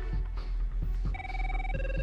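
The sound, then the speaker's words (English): A telephone rings in a medical setting: a steady electronic tone begins partway through over low background rumble, then shifts to a different pitch near the end. “Both Burke and Tony reach for the phone.”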